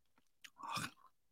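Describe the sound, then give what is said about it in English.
Soft chewing on a bite of cupcake, faint and mushy, swelling into one brief burst of mastication before fading. “I'm gonna have to eat some of this cupcake to cleanse the palate after that one.”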